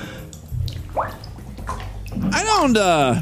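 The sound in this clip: Water sloshing and splashing in a bathtub where a man holds a hand around his own neck, with voices over it and a strained, gurgling vocal sound that rises and falls near the end.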